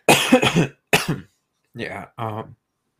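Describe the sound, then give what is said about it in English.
Someone coughs and clears a throat with something stuck in it: a few harsh, raspy bursts, then two short voiced throat-clearing sounds after a brief pause. “Sorry, I have something stuck in my throat.”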